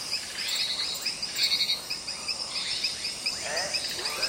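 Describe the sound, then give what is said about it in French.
Night chorus of insects and frogs in the Amazon rainforest, shrill cricket-like chirping pulsing high and steady throughout, with other lower chirps and calls woven in at moderate loudness. “Impossible de se sentir seul dans la forêt amazonienne la nuit.”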